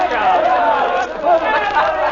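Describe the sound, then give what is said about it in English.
A crowd boos at a football game. Many overlapping voices form a sustained, wavering jeer that stays loud with a brief dip in the middle. “Dumplings, listen, they're booing me.”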